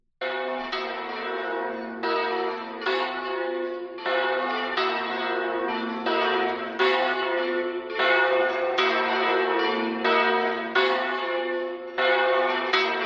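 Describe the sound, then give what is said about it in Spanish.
Church bells of San Saturnino in Artajona, swung and rung by traditional bell-ringers, peal steadily for the whole clip. Rapid, overlapping metallic strikes keep a loud, continuous wash of ringing, with no voices. “Tocan las campanas de la iglesia de San Saturnino,”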